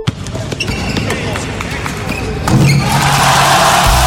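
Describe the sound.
A basketball bounces on a court for a youth mini-basket course in Fabriano, a steady series of sharp thuds over background noise that grows louder toward the end.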